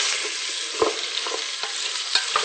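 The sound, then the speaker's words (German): Onions sautéing in a pan give a steady hiss of sizzling, broken by a few short scraping clicks as they are stirred. “Bis die Zwiebeln ungefähr so goldbraun sind oder bis es angedünstet ist einfach. So 15 Minuten? Ja. Bisschen umrühren.”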